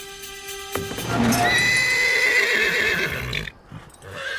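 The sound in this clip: A horse neighing outside a barn, one long, loud whinny with a strong harmonic tone that holds for a few seconds and then cuts off, leaving quieter background sound.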